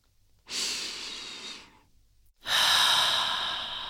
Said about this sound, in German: atme über die Nase ein und gerne über den Mund einmal aus.